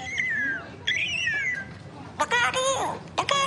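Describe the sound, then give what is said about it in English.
Bird calls: two clear, descending whistled notes, followed by two short bursts of harsher, buzzier calling. No other sounds are mixed in. “You hear that? Sounds like a bird saying, look out here, look out here.”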